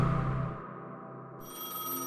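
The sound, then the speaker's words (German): A telephone bell rings in a warm living room early on a February morning in 1979, giving a steady tonal ring that holds for about two seconds. “Am frühen Morgen des 13. Februar 1979 klingelt das Telefon von Fotograf Peter Kreier in Oldenburg.”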